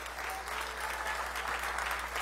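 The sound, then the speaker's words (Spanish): Steady applause from an audience clapping as an offering to the Lord during a Spanish-language church worship service, a dense, even wash of many hands that holds at a constant level throughout. “Dele una ofrenda de palmas al Señor.”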